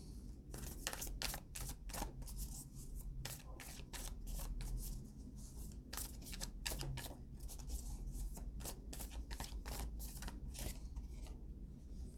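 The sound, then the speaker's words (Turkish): A deck of tarot cards being shuffled and handled for drawing, with many crisp, rapid snapping and riffling clicks that go on steadily and fairly softly throughout. “Sonuç olarak kart çekeyim.”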